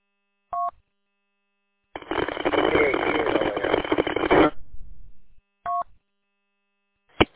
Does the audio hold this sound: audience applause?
no